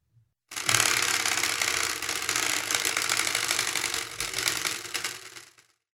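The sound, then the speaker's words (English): A spinning prize wheel with a sprinkler-head pointer rattles out a rapid, continuous stream of loud mechanical ticks for about five seconds, holding steady before tapering off to silence. “I get to say what the spinny wheel has landed on.”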